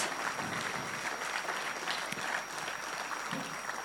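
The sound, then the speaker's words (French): Applause from an evening audience at a cultural centre after a call for a round of applause: continuous, even clapping throughout, fairly faint. “Donc je voudrais à nouveau qu'on leur fasse un tonnerre d'applaudissements.”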